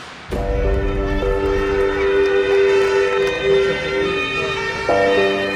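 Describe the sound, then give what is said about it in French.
Sirens of a presidential motorcade with motorcycle escort speed through Paris streets, sounding as loud, steady horn-like tones with rich harmonics that shift in pitch a couple of times over a low traffic rumble. “le convoi du nouveau président de la République file à la lumière des gyrophares et au bruit des sirènes.”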